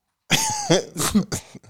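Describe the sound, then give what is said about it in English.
Someone coughs in a quick run of several harsh, throaty bursts, loud and uneven in rhythm, with no talk over them. “Somebody coughing.”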